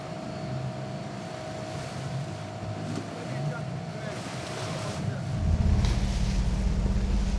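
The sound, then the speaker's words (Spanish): An auxiliary motorboat that ferries goods between ships gives a steady engine drone over rushing wind. The drone swells louder and deeper near the end. “Atracar un barco al lado del otro es peligroso. Por eso emplean un bote auxiliar para intercambiar mercancías.”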